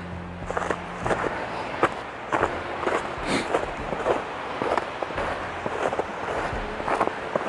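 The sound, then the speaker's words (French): Footsteps crunch on snow along the edge of a frozen, icy path, a steady walking rhythm of many soft steps under a constant low background hiss. “Donc j'essaye de marcher vraiment sur le bord où il y a un peu plus de neige”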